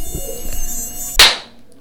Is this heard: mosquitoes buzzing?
yes